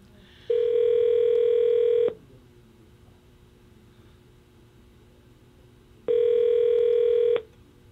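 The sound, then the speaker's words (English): Two long, buzzing ring tones sound on a telephone line as a call is placed. Each lasts about a second and a half, and a few seconds of quiet hiss separate them. “Here we go. Let's dial it up.”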